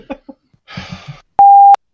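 A mobile phone lying on a desk next to a microphone gives one steady mid-pitched electronic beep lasting about a third of a second, loud and clean, after a few faint, brief sounds.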